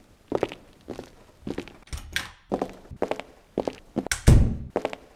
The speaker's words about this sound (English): The three walk into practice room 2.